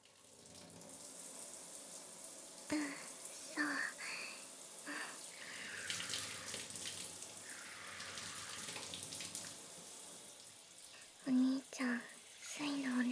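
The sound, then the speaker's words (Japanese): Hot water runs from a handheld shower in a steady, soft hiss throughout, and a quiet voice speaks at times over it. “シャワーを手に持たせてほしいって。そっか、最初はお湯で汗を流さないとだよね。”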